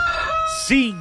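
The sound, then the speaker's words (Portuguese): A rooster crows in a short, loud burst near the end, its call sweeping downward in pitch after a brief run of other sound. “Cutuca o galo.”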